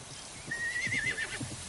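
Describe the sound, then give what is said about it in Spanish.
A horse lets out a high, wavering whinny while three riders approach at a gallop. Hoofbeats thud in a few low, soft beats under the neigh, and the whole sound is fairly faint. “tres jinetes que se acercan a galope”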